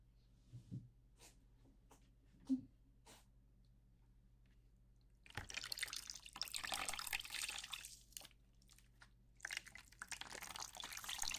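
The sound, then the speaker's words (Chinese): Water sprays as someone's hair is rinsed during a salon hair wash. A few faint clicks in near-silence come first, then a steady, broad rushing hiss of running water that lasts to the end. “现在帮您冲洗一下哦。”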